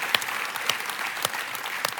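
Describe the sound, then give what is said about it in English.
Church audience clapping together during a sermon, a dense, steady wash of applause with a few sharper individual claps standing out. “You want to clap? Let's clap. Want to clap for that?”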